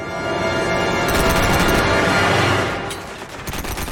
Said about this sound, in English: Oh, he went to shoot the robot behind him, and now he's just kind of wildly shooting everywhere, and we have to dodge.